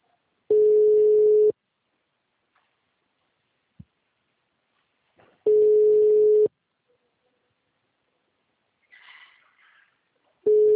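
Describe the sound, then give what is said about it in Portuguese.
Telephone ringback tone while a call is being placed, three long, steady, evenly spaced ring bursts separated by silence, the last one cut short at the end. “vou ligar para você, tá?”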